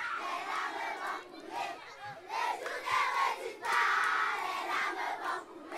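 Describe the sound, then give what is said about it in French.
Children at a school singing a song together, a lively, loud mass of young voices with chant-like sung phrases and shouts rising and falling in bursts. “On a été accueillis extrêmement chaleureusement par les enfants qui ont d'ailleurs euh, chanté une chanson pour nous pendant ce reportage.”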